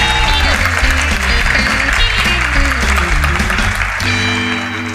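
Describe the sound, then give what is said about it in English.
Loud, dense applause from an audience welcoming a speaker at a church service, a continuous clapping wash that eases slightly toward the end. “So this morning, would you put your hands together and welcome Nick as he comes.”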